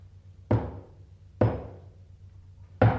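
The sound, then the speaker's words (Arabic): Knocking on a gate: three heavy, separate knocks, unevenly spaced, each a sharp hit with a short fading ring, alone with no voices. “وفجأة سمعوا طرقا على البوابة.”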